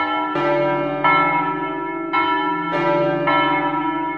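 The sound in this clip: Church bells ring for Easter, with a few slow, resonant strikes from more than one bell, each leaving a long humming ring that overlaps the next, with no talk.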